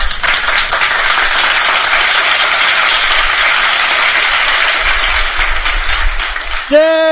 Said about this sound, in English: Don't we have a hand clappy thing on that thing?